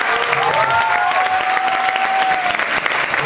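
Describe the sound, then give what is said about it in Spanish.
An audience applauds loudly and continuously for a television host, a dense wash of clapping with a faint voice or tone gliding through it. “Así que yo quiero un fuerte aplauso para él.”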